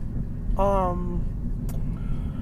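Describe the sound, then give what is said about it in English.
Steady low road rumble of a car being driven, heard from inside the cabin, with a short voiced sound rising briefly over the even engine and tyre drone early on. “I love recording while I'm driving because, first of all, it's soothing”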